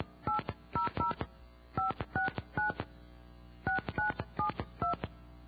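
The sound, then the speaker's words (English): Telephone touch-tone dialing as a number is redialed after a misdial: a run of short, clear keypad beeps in irregular groups with a pause midway, without talk. “Oops, I misdialed. I'm sorry. It happens. All right, let's try again.”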